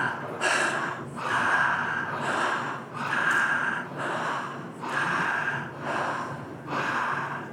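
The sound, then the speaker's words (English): Full, deep belly breaths during a breathwork exercise: many loud, airy inhales and exhales follow one another in an even, connected rhythm with no pauses between them. “we got full breaths in the belly. Then we want to move it all the way up into the chest.”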